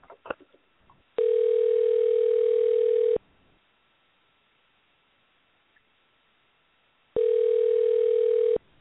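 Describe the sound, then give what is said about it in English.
A telephone tone sounds while a call is placed: two long, steady, mid-pitched tone bursts of about two seconds each, separated by a long silent gap, with a few faint clicks before the first. “Let's try dialing him again. Let's see if we get the voicemail again.”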